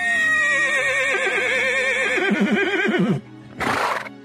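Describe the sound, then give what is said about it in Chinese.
A fine, fast horse neighs loudly: one long whinny with a quavering voice that falls in pitch over about three seconds, followed after a short pause by a brief noisy burst. “跑起来也比其他马儿都快，叫声也特别响亮。”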